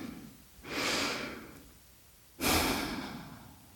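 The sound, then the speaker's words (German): A slow, deep breath: a soft, drawn-out inhale followed after a pause by a stronger, breathy exhale that fades out. No one speaks. “schließ doch die Augen und atme einmal ganz tief durch”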